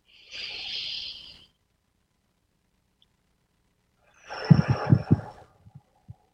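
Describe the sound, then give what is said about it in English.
A deep breath in and out during a guided relaxation exercise: a smooth, airy inhale, a pause of silence, then a longer and rougher exhale with a few soft pulses fading into faint puffs. “So breath number one. Second breath, relax.”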